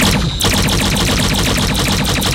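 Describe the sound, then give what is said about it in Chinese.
Rapid, loud bursts of gunfire from a sci-fi gun being triggered in a VR shooting game, the many shots hammering out in a fast, steady automatic rhythm after a brief gap at the start. “这把武器现在在我的眼中呢，它是一个非常非常科幻的东西，上面有一些绿颜色的光点，这里还有一个雷达。我如果扣动扳机的话，”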